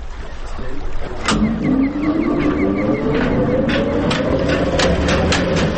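A dynamo spins up before a generator is started: a steady mechanical whir over broad noise, with a whining tone that climbs gradually in pitch as it gathers speed.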